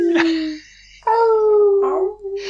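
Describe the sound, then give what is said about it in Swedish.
A human voice imitates a werewolf howling, giving a few drawn-out, tonal howls, the longest one held steady and sinking slightly at the end. “och sen en varulv som ylar långt borta så här.”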